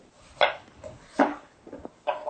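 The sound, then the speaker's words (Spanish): A kitchen knife chops leek and zucchini into fine pieces. A few sharp, irregularly spaced strikes on the cutting board are separated by fainter taps. “Puedes ir picando el puerro y yo voy picando también el calabacín.”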